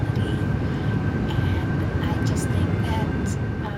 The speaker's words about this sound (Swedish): This is TXA Airlines 456 descending through.